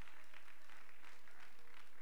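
A church audience applauds in a steady, faint wash of clapping that runs throughout without a break.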